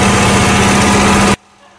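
Loud engine roar from a car built by joining two working cars together, a steady dense drone with a low hum running through it that cuts off abruptly after just over a second.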